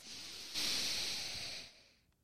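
Deep inhale during a guided breathing exercise: a soft, breathy hiss that swells after a moment, holds steadily, then fades away, with no talking.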